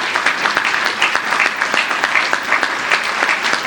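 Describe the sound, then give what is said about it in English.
A church audience claps their hands together in dense, steady applause that holds at an even, fairly loud level from start to finish. “Let's clap our hands unto the Lord then for welcoming us back.”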